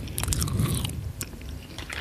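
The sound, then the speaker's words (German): Biting into and chewing a sweet snack, with close, crisp crunches and a few sharp cracking bites followed by softer chewing, no talk. “Ich kann ja schon mal die eine Hälfte oder eine Hälfte abbeißen, damit ich so ein Gefühl dafür bekomme, wie das gleich klingt.”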